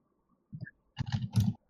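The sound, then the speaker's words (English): Typing on a computer keyboard into Twitch chat: a brief tap of keys, then a quick flurry of light clicking, faint and alone without talk. “I will write it into Twitch chat so that the viewers can check it out.”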